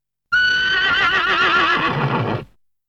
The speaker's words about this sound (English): Horse.